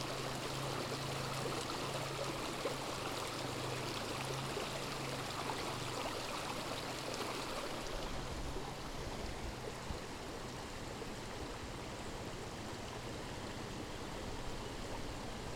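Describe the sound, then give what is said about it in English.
Flowing water of a stream rushes in a steady, loud, even wash of noise that runs unbroken from start to end, with no voices over it. “Listen to the water a second.”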